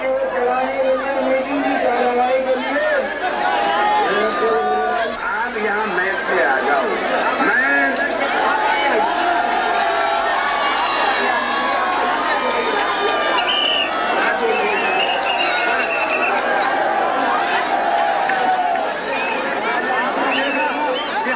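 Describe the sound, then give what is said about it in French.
Loud, dense crowd voices pour out without a break as Phoolan Devi, the bandit queen, leaves a train at a political rally in India, with thousands gathered to greet her. “vous avez filmé l'accueil triomphal des foules qui scandent son nom, Poulan Devi, quand elle sort du train.”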